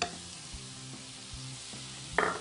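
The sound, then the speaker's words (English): Raspberries and raw cane sugar are stirred in a pan over a very low flame as they caramelize. A faint, gentle sizzle carries a few soft scraping strokes at a steady pace, with no voices. “You start to see as I mix this around here, what we're trying to do is we're trying to get these raspberries to caramelize with the sugar.”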